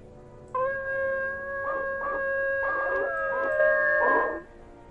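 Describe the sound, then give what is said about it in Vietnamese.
Howling of a pack of dogs: sustained tonal wails held at a steady high pitch for about four seconds, overlapped by bursts of harsher yelps, with no speech. “Một đàn chó quỷ đang tập trung một chỗ, rồi chúng nó chu lên liên hồi. Cái tiếng chu khiến cho người ta cảm giác đến đinh tai, nhức óc.”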